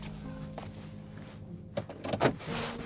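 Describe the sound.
Interior of a car being driven: a steady, faint low engine and road hum throughout, with a few soft clicks and thumps toward the end.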